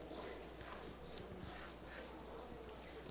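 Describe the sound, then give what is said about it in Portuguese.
A pencil scratches across a sheet of paper while drawing a thick cross, a faint, continuous rasping with gently swelling strokes and no speech. “Um lápis. Okay. Eu quero uma cruz não fininha, uma cruz gorda.”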